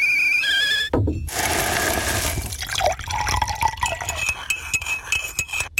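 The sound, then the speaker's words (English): Liquid pours steadily into a cup as instant coffee is made, a bright splashing fill followed by gurgles and scattered drips, with thin tones at the start. “That's the sound of a Nescafe moment.”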